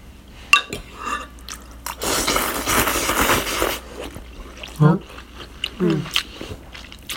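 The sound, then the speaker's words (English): Wet chewing and slurping of udon noodles in broth with a soft boiled egg and chives: a long, loud, noisy slurp fills the middle, framed by a few short, moist smacks and drips, followed by brief hummed murmurs. “Now I'm eating udons with soft boiled egg.”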